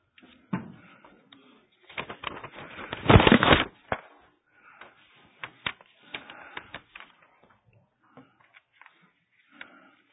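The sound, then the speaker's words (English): Pages of paper stuck together are pulled apart in dry, crackling rustles. A loud, dense burst comes near the middle, then sparser, smaller crackles and ticks follow with quiet gaps between them. “Paper stuck together.”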